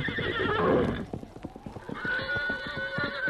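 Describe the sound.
A horse in a Western drama gives a loud whinny, then its hooves clip-clop in a quick run, followed by another drawn-out whinny over the hoofbeats.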